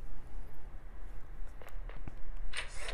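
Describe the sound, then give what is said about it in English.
Footsteps walking up a hallway toward apartment 703: a few soft, uneven steps over a steady background hiss. “All right, we're walking up to apartment 703.”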